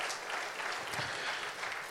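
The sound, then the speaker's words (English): Audience applause welcoming a guest preacher at a Meadowbrook church service, a dense, steady wash of clapping that continues without pause throughout. “Give him a hand. Let's give him a big Meadowbrook welcome.”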